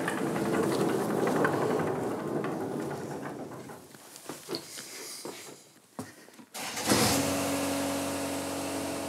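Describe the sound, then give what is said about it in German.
A rough mowing machine on a golf course in Niblum runs with a steady engine drone that fades and sputters with a few clunks midway, then surges back abruptly and loudly near the end. “Eine Rough-Mähmaschine.”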